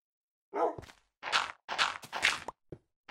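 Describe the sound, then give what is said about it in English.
Footstep-like scuffs in a video game, attributed to creepers moving around upstairs: several short, noisy bursts in an uneven rhythm, moderately loud, with no talk. “Definitely creepers walking around upstairs.”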